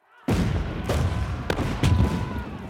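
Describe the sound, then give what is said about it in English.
Artillery and gunfire opening on surrounded barracks: a heavy boom, then several further sharp blasts and cracks over continuous rumbling. “The Sultan has already ordered the barracks surrounded by artillery. Now, with the trap sprung, he orders the troops loyal to him to open fire.”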